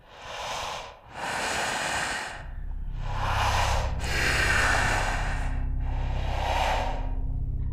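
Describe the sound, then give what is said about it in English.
Slow, deep breathing, a series of long airy inhales and exhales that swell and fade one after another, joined partway through by a low, steady drone underneath. “They breathed deeply and slowly.”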